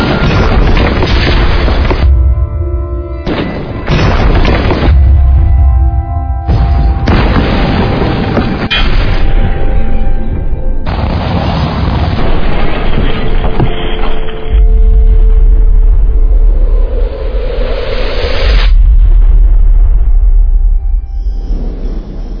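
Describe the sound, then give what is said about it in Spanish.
A bomb explosion gives a loud, sustained, roaring boom with heavy low rumble that runs for about twenty seconds, breaking off and surging again several times, with no voices. “Ese fue el momento en el que explotó la bomba.”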